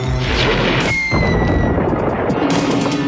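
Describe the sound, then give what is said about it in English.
A blaster mask fires a loud crashing blast that breaks a stone slab covering a hole: a dense, rumbling burst of noise with a thin whistling tone, sustained throughout. “And he uses his blaster mask now to break the stone above that was covering the hole”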